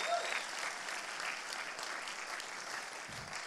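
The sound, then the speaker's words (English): A church audience applauds visiting guests with sustained, even clapping. It is loudest at the start and eases slightly toward the end. “Give them a big, big hand. Come on, you can do better than that. Give them a big, big hand. Welcome them here today.”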